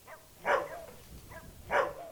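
Stray dogs bark at an abandoned two-story house in Puerto Rico that has no doors or windows. Two faint, separate barks come about a second apart, with low background noise between them and no voices.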